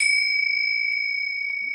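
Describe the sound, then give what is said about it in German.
A gong rings out as one bright, high, chime-like tone that sustains steadily with little decay for nearly two seconds. “Der Gong war für Lotti.”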